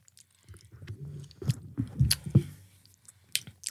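Chewing on dark, speckled gluten-free walnuts: moist, crunchy bites and squishy mastication with a few sharper crunches in the middle, fairly quiet and without talk.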